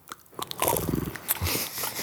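Crunching and chewing as a person bites into and eats food close to the microphone, wet crackling bites in an irregular rhythm, fairly loud with no talk.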